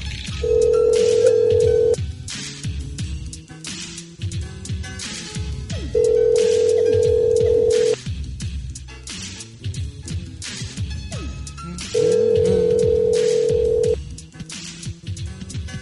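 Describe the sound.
A Skype call tone repeats as the call connects, three steady two-second mid-pitched tones separated by pauses of about four seconds, with other busy sounds continuing underneath.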